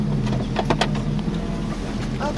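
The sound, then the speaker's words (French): Someone climbs into the cab of a modern tractor, making a few mechanical clunks and rattles over a steady low engine hum. “Hop. Voilà, je suis assise dans le tracteur, c'est bien.”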